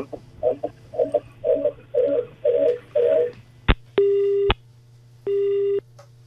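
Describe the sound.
Incoming telephone call tone on a farm radio phone-in: a sharp click, then two steady, buzzy ring bursts separated by a short gap, over a low constant hum.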